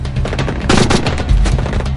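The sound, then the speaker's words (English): Automatic weapons fire in a shootout around parked cars: rapid, loud, overlapping bursts of many shots rattle without pause from start to end. “As the Aryan thugs take up positions and fire automatic weapons”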